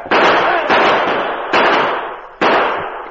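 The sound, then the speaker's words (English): Gunshots in a Western street fight as men are shot down: four loud blasts, unevenly spaced, each trailing off into a long rumbling decay. “Here comes some hombres into the street. Shoot them down.”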